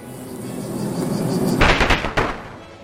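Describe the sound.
The Insect-type special move Plague goes off in a turn-based monster battle video game: a rising hiss gives way to a series of loud, sharp crackling blasts, with one more burst right at the end.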